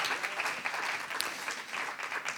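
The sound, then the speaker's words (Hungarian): Audience applause at an award event on a stage comes as a steady, fairly faint patter of many hands clapping, continuous throughout and without talk. “egy kis tapsot hagy kérjek szintén”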